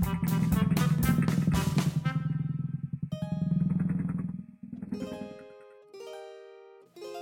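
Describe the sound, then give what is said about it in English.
A cartoonish motor buzz for a child's scooter ride home revs in rapid pulses, then drones and cuts away. Bright, tonal musical notes follow. “Then Little Red gave Grammy and Wolfie a hug goodbye, and she rode her scooter all the way home.”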